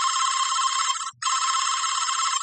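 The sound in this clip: An unanswered telephone ringing: a loud, bright electronic trill in two long bursts split by a brief pause, with no voices.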